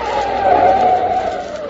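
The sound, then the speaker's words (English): Tyres squeal as a car's brakes are slammed on hard on a road at night: one continuous high screech lasting nearly two seconds, loud and steady before its pitch sags slightly at the end. “Mike had to slam on his brakes so that he wouldn't run over him.”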